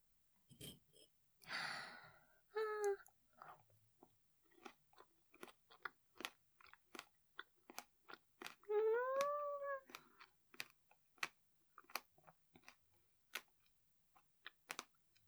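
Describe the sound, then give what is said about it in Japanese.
Someone bites into and chews a strawberry, making many quiet, wet crunching clicks in an irregular rhythm, with two short voiced murmurs in between. “よし、いちご食べちゃうぞ。”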